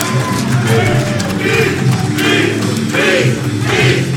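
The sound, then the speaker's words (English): A crowd cheers at a wrestling match, a loud, steady roar that swells in repeated surges. “And the crowd eating it up. The crowd loving the beast.”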